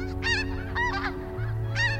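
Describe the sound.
Snow geese honking over a stubble cornfield: several loud, nasal, rasping honks in irregular bursts, some overlapping, over a low steady hum.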